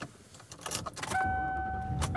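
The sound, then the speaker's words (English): Inside a car being driven home, a few light clicks and rattles give way to a steady low engine rumble, joined by a sustained, even electronic tone that holds to the end. “And I am driving home.”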